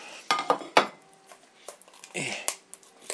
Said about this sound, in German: Dann noch ein Teller.